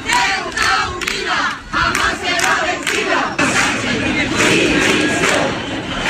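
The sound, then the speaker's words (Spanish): Many voices chant in unison at a march in Ceuta, calling for Pedro Sánchez to resign. The shouted phrases come in loud rhythmic bursts and repeat steadily over a continuous crowd roar. “Una manifestación que pretendía dejar fuera los signos políticos, pero las imágenes están teñidas de banderas de España y el sonido es el de los cánticos que piden la dimisión de Pedro Sánchez”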